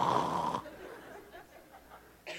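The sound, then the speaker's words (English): A man imitates the snoring of someone dozing in a recliner with one short, loud, rasping snore that cuts off abruptly. Quiet breathy sounds and a soft snort follow. “You're snoring.”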